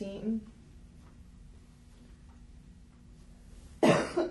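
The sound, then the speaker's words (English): A single loud, harsh cough from someone battling allergies rises out of a quiet background near the end, following a brief, faint vocal sound at the start. “I've been battling allergies, so I'm trying to drink water and avoid coughing”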